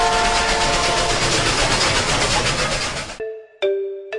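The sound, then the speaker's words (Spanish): Train rumbling and clattering along the rails as a sound effect, a dense loud roar that cuts off abruptly into a tonal horn: a short blast, a brief gap, then a longer sustained one. “Recorre América Latina y el resto del mundo en nuestro tren imaginario.”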